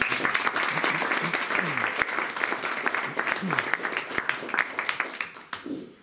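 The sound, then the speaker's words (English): Audience applause after singing happy birthday at a lecture event: steady, dense clapping from a crowd with some voices mixed in, thinning and fading out near the end. “Yeah, let's give him a round.”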